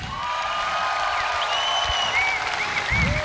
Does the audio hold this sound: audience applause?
yes